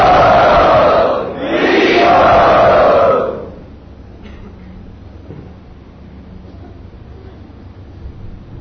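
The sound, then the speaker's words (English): Loud crowd cheering and shouting to welcome a guest at the Sri Sri Radha Gopinath temple, in two close bursts lasting about three seconds, then dropping off to near quiet. “Everyone kindly welcome him to Sri Sri Radha Gopinath. Very loudly.”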